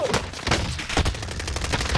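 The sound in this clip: Video game gunfire crackles in rapid bursts of many shots. The firing forms a dense, fairly loud fusillade that continues throughout.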